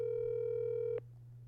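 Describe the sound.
Ringing tone of an outgoing phone call that goes unanswered: one steady electronic tone holds for about a second, then cuts off abruptly, leaving a low hum.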